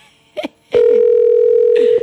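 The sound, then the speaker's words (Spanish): A telephone call being placed that ends at an answering service: a short pair of electronic blips, a pause, then one loud, steady line tone held unbroken to the end. “Pero no contesta a nadie. Y llama May. Pues seguramente. Este es el servicio de contestación. No dio. Que conste que lo intenté.”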